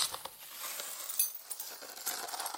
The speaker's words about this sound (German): zeichne ich euch das mal mit dem Fuß auf den Boden